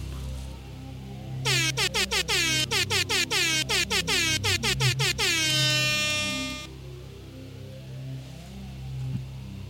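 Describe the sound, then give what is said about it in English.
A truck air horn sounds as a salute: a rapid, loud series of many short blasts, then one long sustained blast before it stops. A low engine rumble continues underneath. “Can we get a second? Can we get a second 17 air horn salute?”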